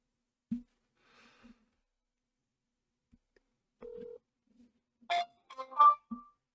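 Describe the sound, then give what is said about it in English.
Telephone tones on a dialed call to a number that is no longer in service: a short steady tone, then a few brief electronic tone bursts, faint and separated by quiet gaps. “I wonder what would happen if we called this number.”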